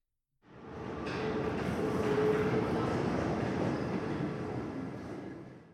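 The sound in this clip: A metro train rumbles into an airport terminus station. A dense, even roar of wheels and motors starts abruptly and holds level throughout, with a faint sustained whine above it.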